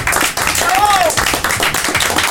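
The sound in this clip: A studio audience applauds guests from a video-game website on a gaming show, with steady clapping throughout, voices mixed in and a brief whistle partway through.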